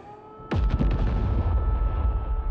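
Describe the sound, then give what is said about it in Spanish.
Bombs exploding during a bombardment: a sudden sharp blast, then a few quick crackling bursts and a heavy, low rumble that continues to the end. “Saldrá ahí fuera mientras siguen cayendo bombas.”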